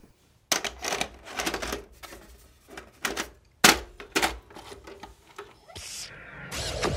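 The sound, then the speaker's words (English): A VHS tape is pushed into a video player to start the Nightmare video board game: a series of sharp plastic clunks and clicks of uneven rhythm, followed by a steady mechanical whirring as the player engages. “we're playing the VHS board game, A Nightmare. Let's pop in the tape and start playing.”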